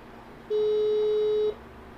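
Telephone ringback tone on an outgoing call: one steady, mid-pitched electronic tone lasting about a second, standing clearly above low background hiss.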